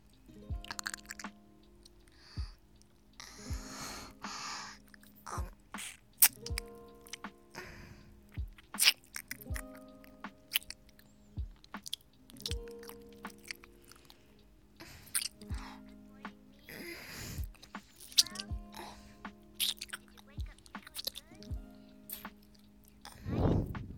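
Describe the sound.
Faint, wet chewing and biting of food, with many irregular crunches and squishy smacks spread across a long stretch, soft and close with no talk.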